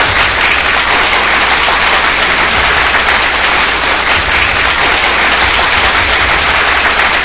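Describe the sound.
Loud, dense applause fills the whole stretch, a constant, hissing wash of many hands clapping with no voices on top.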